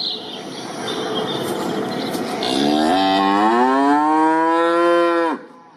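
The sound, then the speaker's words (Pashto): On a cattle farm in Lashkargah, a large hornless cow gives one long, loud moo that climbs in pitch and then drops sharply as it ends, after a stretch of low background noise. “دا غواوی د عادي کلیوالو غو سره فرق لري، شکرونه نه لري. تر کلیوالو غواو غټي دي”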